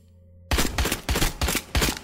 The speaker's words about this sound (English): Let me shoot. You made blood, Chris. Why are you shooting people, Chris?